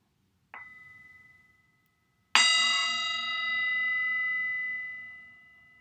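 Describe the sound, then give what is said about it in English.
A singing bowl rings twice during a guided meditation. A short, softer strike fades quickly, then a loud bright strike blooms into a long, sustained metallic tone that slowly fades away. “And then just going to invite our singing bowl, and then just allow ourselves to listen to the sound and just allow our eyes to close.”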